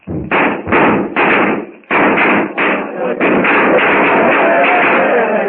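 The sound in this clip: Cartridges thrown into a fire go off: a few loud, separate bursts of noise at first, then a dense, nearly continuous run of crackling bangs, loud and without speech over them.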